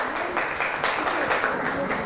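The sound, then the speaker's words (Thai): Students clapping for group 6 in a classroom, a quiet, steady patter of many hands with voices mixed in. “ถูกไหมคะปรบมือให้กลุ่ม6ค่ะ”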